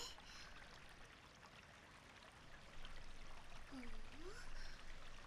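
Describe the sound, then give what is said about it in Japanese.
Azuki beans being washed in water give a faint, steady rush of flowing, trickling water that grows a little louder in the second half. “キシャキシャキシャキシャキシャキ。今日はいい小豆が手に入ったからよーく洗っておかないとね。”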